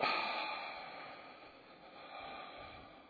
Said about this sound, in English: Let's take a couple of cleansing breaths to start. Breathe in. Breathe out.